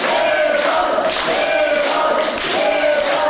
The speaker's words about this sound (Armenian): Իսկ Գևորգ Սաֆարյանին համակիրները վանկարկումներով ու ծափերով դիմավորեցին։